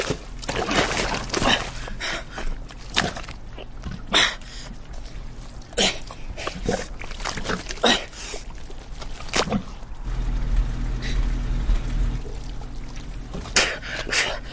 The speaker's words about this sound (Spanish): Chapotea en el lodo cerca de la cruz.